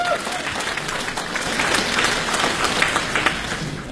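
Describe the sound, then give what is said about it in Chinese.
Audience applause welcoming performers at a crosstalk comedy show, a thick, continuous patter of many clapping hands that holds at a steady, loud level throughout. “掌声有请。”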